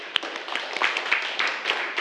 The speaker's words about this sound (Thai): ขอบคุณมากครับปรบมือเพื่อนหน่อย